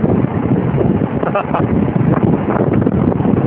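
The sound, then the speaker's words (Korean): Wind blowing on a highway, buffeting the microphone in a loud, steady, rumbling roar that fills the whole clip without letup. “바람 소리 잘 들려요? 여기가 어디냐면 고속도로 위입니다.”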